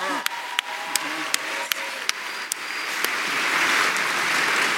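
Audience applause for the producers begins with a few spaced, single claps, then swells into broader, steady clapping toward the end.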